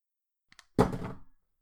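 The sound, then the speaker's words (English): A dropped iPod lands with a single dull thunk and a short rattle that fades within half a second, preceded by two faint small ticks. “Accidentally hit the button that closed the iBooks app. Dropped the iPod.”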